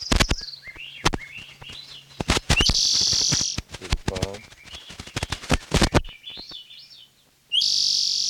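Swainson's thrushes singing loudly, with repeated flute-like phrases that spiral upward, mixed with many sharp clicks and short noise bursts.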